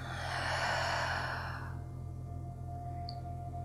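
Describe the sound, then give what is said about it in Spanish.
A deep breath let out through the mouth in a guided relaxation exercise, one long, breathy rush lasting under two seconds that cuts off, leaving a steady low electrical hum. “Y lo vas a repetir, inhalas profundo y por tu boca sueltas.”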